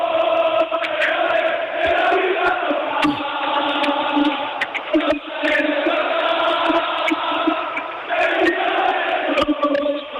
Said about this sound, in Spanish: Así suena la afición del Málaga.